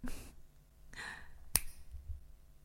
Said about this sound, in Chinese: 听到了吗？这是我打响指的声音。